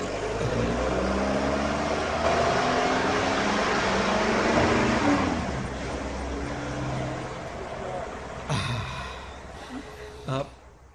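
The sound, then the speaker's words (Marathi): Car ride with a steady engine rumble and broad road noise filling most of the stretch; a couple of brief voices come through near the end. “बरं बरं पोरी, आता तुझा आग्रहच आहे तर बसतो आम्ही कार मध्ये.”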